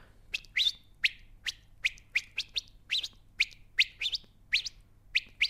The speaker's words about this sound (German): Und dann hat sie mir auch geantwortet. Dann haben wir uns gegenseitig angezwitschert.